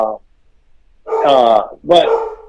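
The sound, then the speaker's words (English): A hungry dog barks loudly, one short bark followed by two long, drawn-out, strongly tonal barks in quick succession. “Somebody's dog is hungry. Yeah, we apologize to our listeners for the loud dog.”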